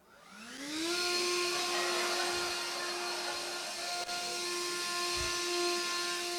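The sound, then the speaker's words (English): A battery-powered 60-volt leaf blower starts and runs while clearing a porch. Its high, tonal whine climbs quickly in pitch as it spins up, then holds as a steady, fairly loud drone. “It takes me about 20 minutes to clean my porch with this leaf blower. So I thought I would go out and get a real leaf blower.”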